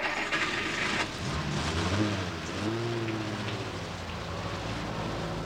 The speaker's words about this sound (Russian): Ну и дождь.